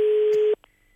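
Telephone line tone while placing a call: one loud, steady, single-pitch beep lasting about half a second, cut off abruptly into near silence with a faint click afterward.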